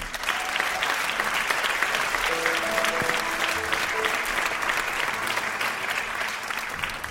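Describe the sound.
Warm applause from an audience greets the guest speaker at a New Thought spiritual community service, a thick, even roar of many hands clapping that stays loud and unbroken throughout.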